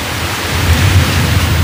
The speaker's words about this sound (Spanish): Esos son los truenos que se oían esta mañana.